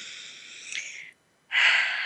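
A breath being taken: a soft, drawn-out airy breath, a brief silent pause, then a louder, fuller rush of air, with no talk around it.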